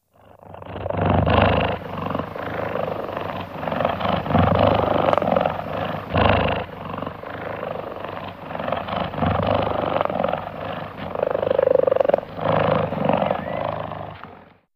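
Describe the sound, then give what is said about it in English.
Deep, loud purring from a relaxed cheetah: a continuous low rumble that swells and eases in a steady rhythm, with no pauses across the whole stretch. “If it is relaxed, it purrs, loud and deep. It sounds like this.”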